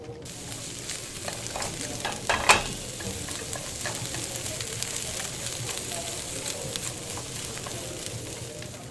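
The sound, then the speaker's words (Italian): A peeled garlic clove sizzles in oil in a small nonstick pan, giving a steady crackling hiss with scattered pops and one louder clink early on. “scaldate l'olio in una piccola padella antiaderente e fate imbiondire lo spicchio d'aglio spellato.”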